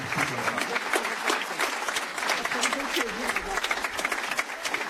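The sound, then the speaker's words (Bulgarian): An audience applauds at a pop and jazz concert. The clapping is dense and crackling, rising and falling in uneven surges, and a few voices mingle with it. “Аплаузи за всички вас, които направихте това нещо възможно.”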